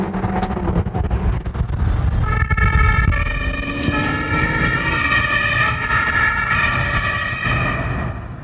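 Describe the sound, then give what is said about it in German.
A police car siren wails in pursuit over a rumble of engine and road noise. The loud, wavering siren tone takes over after a couple of seconds and carries on, rising and falling, to the end. “Und Katharina mit Blaulicht und Martinshorn direkt hinterher.”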